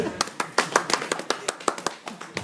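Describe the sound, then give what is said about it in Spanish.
Scattered applause from a small audience at a live comics discussion after on-stage performances: many sharp, separate claps in an uneven, sparse rhythm, moderately loud, with no talk over them. “Gracias, un aplauso por las actuaciones.”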